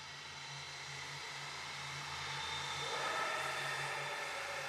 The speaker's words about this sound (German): Die heulenden Triebwerke sind so geil. Es schwebt herab wie auf Wolken.